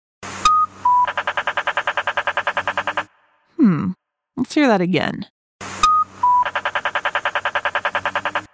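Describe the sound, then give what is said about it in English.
An accessible pedestrian signal at a crosswalk gives a loud, fast and evenly spaced train of sharp ticking beeps. The run plays twice with a short spoken phrase between. “An accessible pedestrian signal, also called an APS.”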